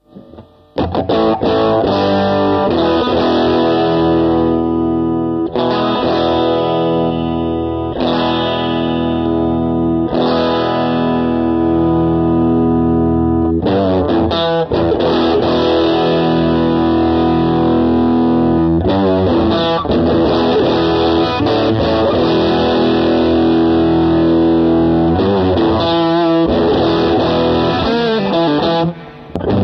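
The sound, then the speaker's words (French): Distorted electric guitar played through the bridge pickup with the drive setting varied around ten o'clock, giving loud, sustained, heavily saturated chords and riffs for about half a minute, broken by a few brief gaps. “faisons un peu varier le réglage de drive qui était là aussi réglé à 10h. Je suis de retour sur le micro chevalet.”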